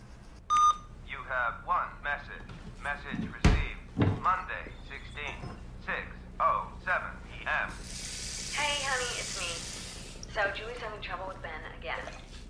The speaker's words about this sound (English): He presses the telephone answering machine.